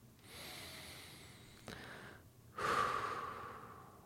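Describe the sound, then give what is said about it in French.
Slow, deep breathing during a guided relaxation exercise: a long, soft, airy breath followed after a short pause by a louder, rushing breath, with no talking. “je vous invite, si le cœur vous en dit, à fermer les yeux, à respirer profondément.”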